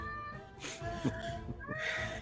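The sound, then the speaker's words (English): A person imitates a cat's meow during a tabletop role-playing game session, giving a few drawn-out, nasal meows with bending, wavering pitch. “Use all your movement to meow.”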